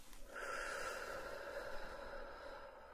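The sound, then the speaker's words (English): A slow, deep breath from a nurse guiding a calming breathing exercise for a migraine. It is one long, soft, airy breath that stays steady and faint throughout, with no talking. “Taking a nice big deep breath in and out.”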